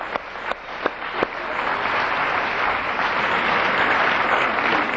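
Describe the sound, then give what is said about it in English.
Audience applause for guests at a group gathering: a few sharp early claps swell into dense, steady clapping that holds loud and even to the end, with no talk over it. “Yeah, give them a hand.”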